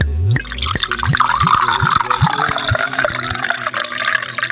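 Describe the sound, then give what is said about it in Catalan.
Liquid pours into a glass as it is refilled, a gurgling stream with repeated resonant tones that climb in pitch as the glass fills, loud and alone. “Es va tornar a omplir el got.”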